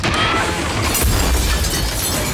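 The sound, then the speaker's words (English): A large display cabinet crashes to the floor in a house, a loud, sustained crash with a shattering, clattering spread of sound and a deeper thump that swells about midway through. “Paul sees Adrienne standing in front of a huge swaying display cabinet. He dashes in and pulls her aside as the cabinet crashes to the floor.”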